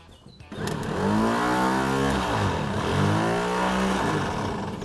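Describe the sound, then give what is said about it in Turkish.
A car's starter motor, wired directly, cranks the engine with a loud, steady whirring drone. It swells in after a quieter opening, and its pitch wavers and shifts as it spins without the engine firing. “Bunu doğrudan marş motoruna bağlayacağım ve motoru çeviriyor mu bakacağım.”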